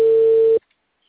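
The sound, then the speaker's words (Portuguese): A single telephone ringback tone sounds while a call is being placed: a steady, mid-pitched beep lasting about half a second that cuts off abruptly into silence. “Ó, tá chamando.”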